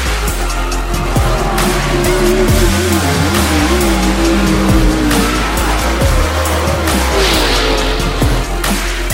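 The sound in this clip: Race cars drag racing to the finish line make a loud, continuous roar of high-revving engines whose tones waver up and down without a break.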